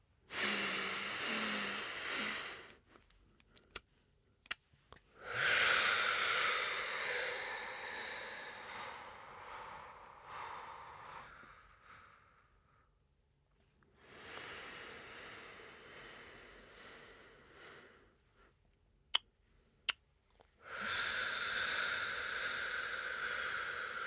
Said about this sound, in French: faire une petite pause et laisser tout l'air au maximum sortir de notre ventre en appuyant bien sur le ventre et en laissant le ventre se regonfler à l'inspiration. Faites-le trois fois et relâchez tout.